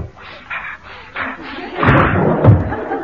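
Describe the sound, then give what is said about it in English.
A window is pushed open with a muffled thump and a rattling scrape, preceded by quieter shuffling sounds. “I really must open the window.”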